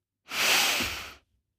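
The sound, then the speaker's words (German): A single deep inhalation into the belly during a standing breathing exercise with the arms rising overhead. It is a soft, airy hiss that swells quickly, holds for about a second, then stops, with no voices. “tief in den Bauch einatmen, dabei deine Arme heben nach oben und beim Ausatmen wieder runterlassen. Also einatmen, ich versuche das gleich. Einatmen.”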